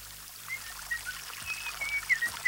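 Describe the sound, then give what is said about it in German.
A flowing brook gives off a faint, continuous trickling and gurgling, soft and watery, with small irregular splashes rising now and then above the quiet babble. “Dort drüben fließt ein Bach.”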